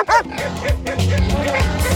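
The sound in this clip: Dogs barking and yipping in the countryside: a rapid run of several short, sharp barks and higher yelps that are loud and close together, with a droning low undertone between the calls.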